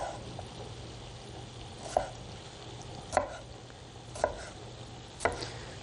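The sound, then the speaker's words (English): Four crisp knife cuts as cherry tomatoes are chopped in half, spaced at an unhurried, fairly even pace over a quiet, low background hum. “And we'll do the same with these guys. Just chop them in half.”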